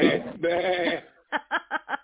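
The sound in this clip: A human voice imitates a sheep bleating in a quick series of short, wavering pulses that follow a stretch of ordinary talk.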